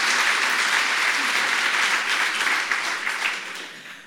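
Applause from an audience gathered at a public event with a cultural programme, a dense, sustained clapping that holds steady and then gradually fades away over the final second.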